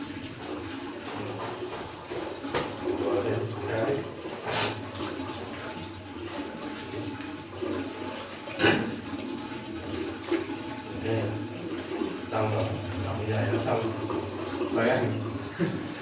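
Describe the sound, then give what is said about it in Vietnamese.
Water runs and splashes as the feet are washed up to the ankles during wudu ablution, a steady wash of tap water under a voice talking. “mình rửa sau tới cái mắt cá chân thì mình chà hết, tức là bàn chân mình phải cho nước nó thấm hết, không được dư.”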